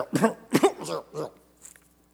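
A man coughs four times in quick, loud, hoarse bursts as if something is caught in his throat, then gives a softer, brief throat clearing.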